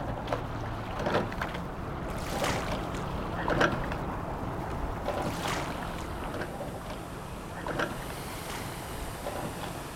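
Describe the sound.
A RowErg rowing machine is rowed at an easy paddle pace, giving off rhythmic whooshing surges of fan air, one with each stroke. The strokes repeat steadily at a moderate level, with no voices.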